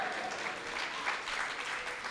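Audience applause fills the whole moment: dense, even clapping from a crowd that holds a steady loudness throughout, with no voices on top.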